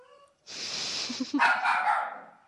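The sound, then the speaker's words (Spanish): A female dog barks and yips in a few quick, loud bursts that run together for about two seconds after a brief silence. “Espérate un segundito, a ver si se calla. Sí. Esta es la perra más famosa de internet.”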